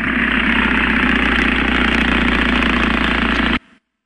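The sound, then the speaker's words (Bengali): A motorbike engine runs with a loud, steady, rough drone that holds unchanged for several seconds, then cuts off abruptly near the end. No voices. “কিসের আওয়াজ? এতো সমুর বাইকের আওয়াজ। হ্যাঁ সমুর বাইকের আওয়াজ।”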